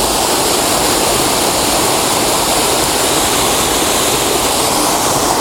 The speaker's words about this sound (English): It might be that this waterfall is not a good panoramic image.